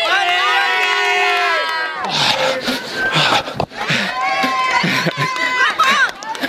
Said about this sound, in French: Après un petit moment de calme dans la forêt, on retrouve le public. C'est génial.